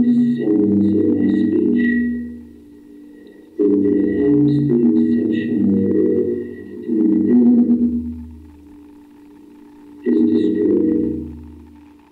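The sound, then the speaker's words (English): Droning electronic hum and roar resembling shortwave radio, from a sound art piece that builds up by replaying into a room until its resonances reinforce. Several loud, sustained swells rise and fade, with a thin steady whine above them and no voices. “I'm hearing like shortwave radio sounds, crackling, roaring, electrical hum”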